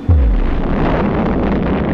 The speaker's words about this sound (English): the first atomic bomb struck an enemy target.